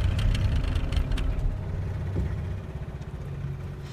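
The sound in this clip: A boat engine suffering engine failure gives a steady low rumble with a throbbing, uneven texture, fairly faint and heard alone without voices.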